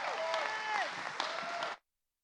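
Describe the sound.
Audience applause welcoming a speaker to the stage: about two seconds of dense, steady clapping with a few voices rising above it, then it cuts off abruptly.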